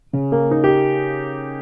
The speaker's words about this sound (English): And now here's how it sounds rolled.